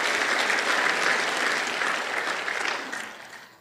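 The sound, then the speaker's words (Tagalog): An audience applauds at a church service, with dense, steady clapping that holds for about three seconds before thinning and fading out. “Alakpakan natin ang Diyos ng malakas.”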